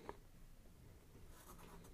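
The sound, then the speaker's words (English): Faint scratchy strokes of a number being drawn by hand on a writing surface, with one brief tap near the start and soft, continuous scraping after it. “That's a backwards six. I'm drawing upside down anyway.”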